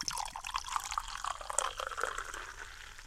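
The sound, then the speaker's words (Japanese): Fizzing from a freshly opened can of chuhi, a ready-to-drink highball of about 3% alcohol, as it is poured: a soft liquid pour with many tiny crackling bubble pops, fairly quiet and with no voices. “はい、これが氷結。 泡がシュワシュワしてる音が ね、いいんです。”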